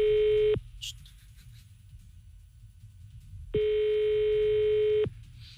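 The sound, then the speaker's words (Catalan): Telephone line tones sound while a call is placed to a restaurant in Tarragona: two long, steady, mid-pitched electronic beeps separated by a quiet gap of a few seconds of faint background hiss. “Tornem a trucar a les coques de Tarragona.”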